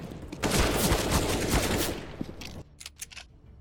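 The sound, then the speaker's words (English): Galil rifle gunfire from the Counter-Strike video game: a loud, sustained automatic burst of rapid shots lasting about two seconds, followed by a few scattered, quieter shots. “Oh, that's a Galil.”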